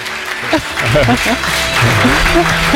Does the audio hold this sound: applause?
yes